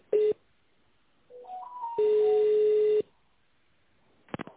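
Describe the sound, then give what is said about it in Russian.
Telephone tones sound as an office call is transferred to the accounting department. A short beep comes first, then a few stepped tones at different pitches, then an even steady tone about a second long. A brief cluster of clicks follows. “Сейчас, секундочку, я вас соединю с бухгалтерией.”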